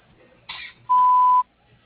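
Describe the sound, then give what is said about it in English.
An answering machine beeps before recording a message: after a brief soft hiss comes a single steady, mid-pitched electronic tone held for about half a second, then quiet. “I'm sorry, we cannot pick up the phone right now. Please leave a message after the beep.”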